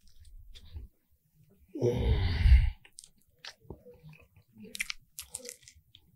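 A person bites into crispy fried chicken: one loud, drawn-out crunchy bite, then quieter, scattered chewing and small crunches, with no talking.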